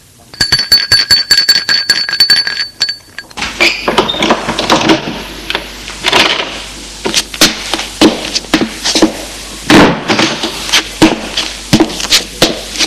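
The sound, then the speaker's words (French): An apartment doorbell rings as a rapid, buzzing electric trill for about three seconds, followed by many sharp clacks and thuds. “Il sonne à l'appartement d'Iphigénie.”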